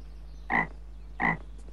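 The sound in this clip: A frog croaks twice, two short, evenly spaced throaty calls. They are fairly faint over a steady low hum.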